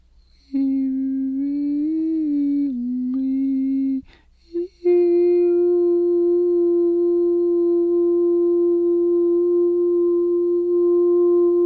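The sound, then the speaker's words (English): A tone used for a frequency sweep: a smooth, steady tone holds for about three seconds with slight wavering, breaks off briefly with a couple of clicks, then a slightly higher tone is held evenly to the end. “When you get good at it, you don't even have to go to the frequency sweep anymore.”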